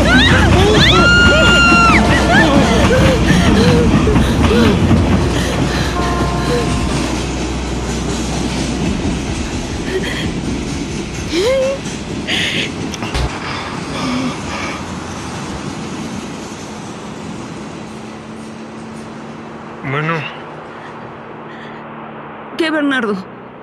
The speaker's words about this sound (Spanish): ¡Va a pasar el tren!